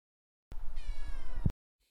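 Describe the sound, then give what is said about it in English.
A cat that seems unwell gives a single drawn-out meow, about one second long and moderately loud, followed by silence. “Well, meow to you too.”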